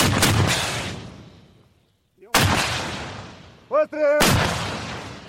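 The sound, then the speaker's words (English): Gunfire as soldiers shoot back after mortar shelling during combat in Ukraine: three loud, sharp booming shots, each followed by a long rumbling decay, with a brief voice heard between the later shots. “So we're going to shoot back right now.”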